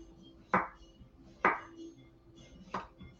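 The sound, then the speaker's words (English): Knife slicing a cucumber into thin slices for a garnish: three crisp knocks against the board at uneven intervals, with a faint steady hum underneath. “slice up some more of our cucumber, just nice thin slices for a garnish.”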